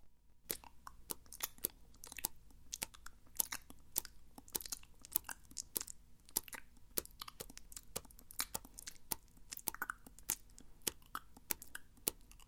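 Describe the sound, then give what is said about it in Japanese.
Someone chewing and eating food, with many sharp crunching bites and wet mastication sounds in an irregular, steady stream, fairly quiet and without talk. “おいしいな。生きてる間に食べたかったな。”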